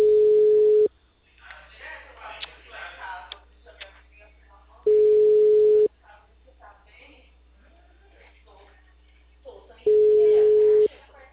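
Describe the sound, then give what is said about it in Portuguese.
A telephone busy signal sounds as three long, steady, mid-pitched tones, each lasting about a second, separated by roughly four-second gaps filled with voices talking. “Tô ligando. O número está ocupado.”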